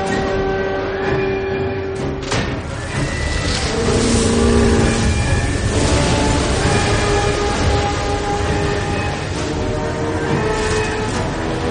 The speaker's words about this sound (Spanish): unos guardias de seguridad están guardando bolsas de dinero en un furgón blindado. La corriente de arena se dirige hacia el furgón y lo sigue, ya que en ese momento arranca.